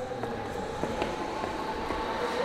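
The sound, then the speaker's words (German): A subway train rolls into an underground station with a steady, loud rumble of wheels and motors. A few faint rail clicks sit on top of the constant low roar, and no voices are heard. “Dann die Stufen runter, den Luftzug der einrollenden Bahn im Gesicht.”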